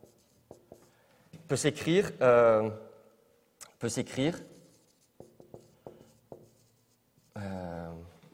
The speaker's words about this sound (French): alors je vais même écrire ça comme ça